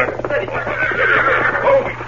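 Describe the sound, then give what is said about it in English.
A horse whinnies loudly as its rider, who had been riding hard, reins it up. The long neigh fills about two seconds. “He was riding hard, and he reined up breathless with excitement. Oh, Silver. Oh, steady.”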